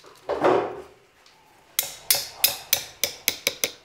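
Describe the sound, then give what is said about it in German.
Sharp metallic clicks of a folding knife being closed after sharpening: a softer scraping burst comes first, then a quickening series of about nine bright ticks. “So schließt man das Messer.”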